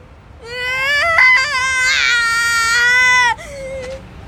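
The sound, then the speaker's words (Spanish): A baby crying: one long, loud, wavering wail that breaks off abruptly, followed by a shorter, softer whimper. “Espera, amigo, no llores, ¿de acuerdo? No quiero cambiar pañales.”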